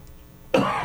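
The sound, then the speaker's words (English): A single abrupt cough from someone with a cold and a scratchy throat, rough and fairly loud after a moment of near silence. “I must apologize for my scratchy throat and coughing and nasally. I caught a cold”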